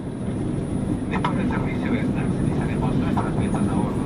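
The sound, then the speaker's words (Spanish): An airplane flying over the Andes gives a steady, broad engine roar that fills the whole clip, with faint voice-like sounds over it. “Por encima de los Andes, su hija Tamara viene volando hacia ella.”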